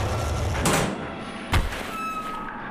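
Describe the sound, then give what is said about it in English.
A mechanical hatch sliding open, a broad whooshing scrape followed about a second later by a short heavy thud, with a faint steady hum continuing underneath. “The ground might be a little shaky while this hatch is opening.”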